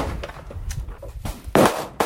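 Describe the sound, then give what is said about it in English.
Gunshots from an AR-15 and semi-automatic handguns during target practice at a shooting range. A few sharp, loud reports, the strongest near the end. “A warning to listeners, this story contains the sound of gunfire.”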